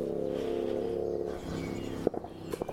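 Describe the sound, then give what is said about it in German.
A car drives by on a road, its steady engine hum fading away, followed by a few faint sharp clicks. “Mich würde ja mal interessieren, wo die Straße ist, wo der Mensch fährt, den ich hier höre.”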